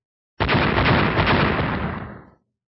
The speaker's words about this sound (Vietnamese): Tiếng nổ vang ngập trời liên tục không dứt, như muốn chấn vỡ mảnh trời đất này.